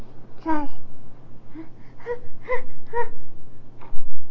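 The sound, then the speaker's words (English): A baby fusses with a series of short, whimpering moans. Each cry is a brief, high, wavering vocal burst, separated by small pauses, over a low steady hum. “What are you fussing about?”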